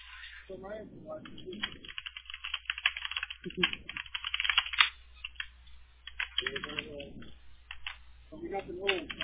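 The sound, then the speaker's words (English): Typing on a computer keyboard: rapid, irregular clicking continues throughout, with people talking intermittently over the keystrokes. “He's on the phone. He's typing”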